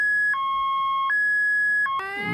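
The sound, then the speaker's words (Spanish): A car alarm that keeps going, sounding long steady electronic tones that alternate between a higher and a lower pitch, ending with a brief burst of brighter, richer tones. “Alarma de auto que no para nunca.”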